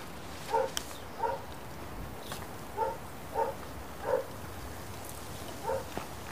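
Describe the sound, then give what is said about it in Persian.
A dog barks in short, faint single barks at irregular intervals, about six of them, over a quiet background hiss. “سگ داره اونجا”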